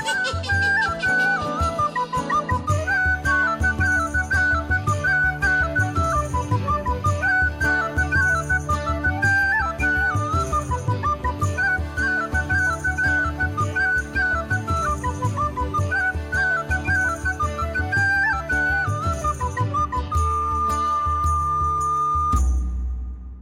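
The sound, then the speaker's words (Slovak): Shepherd's pipes played by a bridegroom at a wedding feast: a bright, high, lilting tune runs steadily over a lower rhythmic accompaniment and ends on a long held note before stopping abruptly. “Iba keď ženík začal hrať na píšťale, všetci sa čudovali, že počujú miesto jednej píšťalky dve.”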